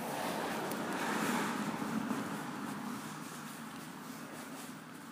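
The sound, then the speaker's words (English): A car drives around at four in the morning, giving a steady rush of engine and road noise mixed with wind buffeting, which slowly softens over the last seconds. “And somebody's driving around at four in the morning.”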